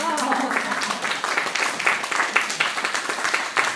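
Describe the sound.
Audience applause at a Japanese gathering: many irregular claps at moderate loudness, with a brief voice at the start.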